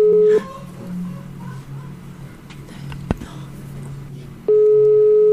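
A steady telephone call tone sounds while a number is being dialed, heard twice: a short burst, then a longer one after a stretch of low background noise broken by a single sharp click.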